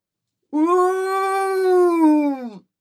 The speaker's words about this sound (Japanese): 太い犬の声がした。